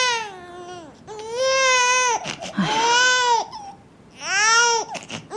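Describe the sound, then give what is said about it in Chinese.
Baby crying hard, loud wailing in several long drawn-out bursts with short sobbing catches of breath between them, heard alone. “你看宝宝哭得这么厉害，不然我冲点奶粉先试试。”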